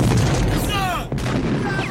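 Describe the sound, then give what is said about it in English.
Dense, continuous gunfire from people firing wildly in all directions as their camp falls into ruin. The barrage is loud and unbroken, with whining tonal streaks running through it. “they're just shooting off in all directions.”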